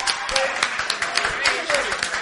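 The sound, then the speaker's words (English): A church audience cheers and applauds, scattered hand claps mixing with raised voices and calls in a lively, continuous burst. “give the Lord a cheer. Praise God.”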